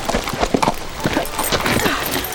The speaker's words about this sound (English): She's riding side saddle. The rider came nearer.